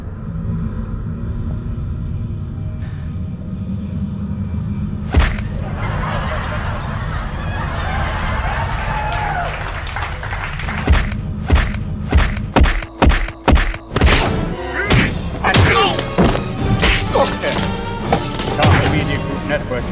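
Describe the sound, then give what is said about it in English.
Punching and kicking sound effects from the James Bond film Tomorrow Never Dies as Bond is beaten: a low rumble with one sharp hit leads into a rapid series of many punchy, slapping thuds. “Bond is being punched and kicked with these funny sound effects that make me laugh and giggle”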